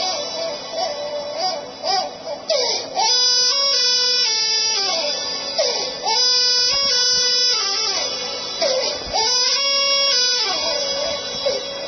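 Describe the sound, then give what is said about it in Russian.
An infant crying, captured on a mobile phone with a narrow, tinny sound. Repeated loud wailing cries rise and fall in pitch in long arching shapes, with brief catches between them. “послушайте, пожалуйста, как плачет ребенок”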